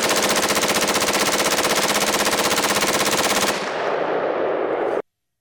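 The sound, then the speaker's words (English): Fully automatic M16 rifle fired on full auto, a rapid, loud, unbroken burst of shots lasting about three and a half seconds, then a short noisy decay before the sound stops sharply. “And then finally, a fully automatic M16 being fired on full auto and using up a lot of ammunition really quickly.”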